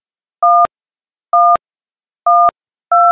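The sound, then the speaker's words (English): Telephone keypad dialing tones: four loud, clean two-note beeps, each held for a short moment and ending in a small click, spaced at a fairly even, unhurried pace with silence between them. “Still dialing, still dialing, still dialing. I'm almost done.”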